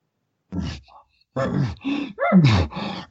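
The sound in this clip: A voice imitates a bull elk's call by mouth with no reed. It makes a few breathy, groaning bursts and a squeaky tone that slides downward, rough and moderately loud.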